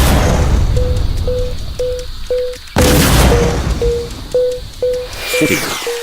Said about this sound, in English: The RS light has just been successfully ended by Poop's grenade on the battlefield map.